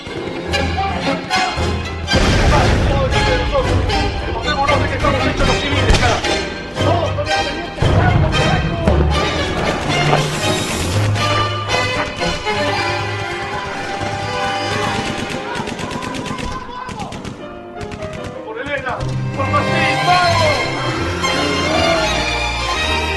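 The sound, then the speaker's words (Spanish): Rifle fire crackles in a radio-drama battle against an advancing army of giant beetles, with many rapid, loud shots and bursts of gunfire running almost continuously. “Y corre enajenado descendiendo desde las gradas, disparando sin parar hacia los cascarudos que siguen avanzando.”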